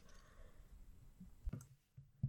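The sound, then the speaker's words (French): Faint clicks from the stop button being pressed on a recorder: a couple of soft, short clicks spaced apart, quiet and alone. “Allez, j'appuie sur stop.”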